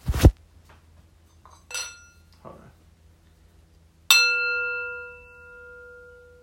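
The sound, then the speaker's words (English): A singing bowl is struck once and rings on, its high and low notes sustaining together and slowly fading; a few brief soft knocks come before the strike. “the same is true for a singing bowl. A singing bowl has a very distinct sound.”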